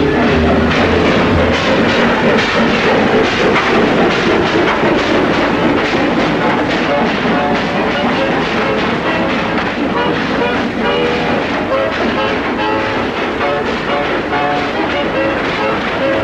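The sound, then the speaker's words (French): A train passing through a station in the evening: a loud, continuous rumble and clatter that fills the whole clip without a break. “Ici la gare de Saint-André. Le 1504 vient de passer à 21h13.”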